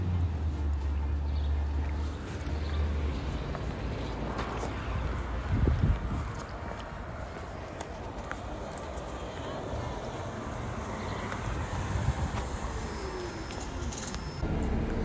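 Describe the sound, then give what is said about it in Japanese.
Rumbling bus interior while riding, with a low, continuous road and engine roar, scattered rattles and a person talking over it. “なんかこう今ちょっとバスに乗ったわけなんですけども”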